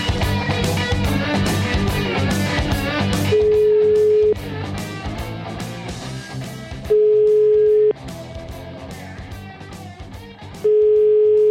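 A telephone call being placed, heard as three steady, evenly spaced ringback beeps of about a second each, sounding over background music that is louder at the start and quieter afterward.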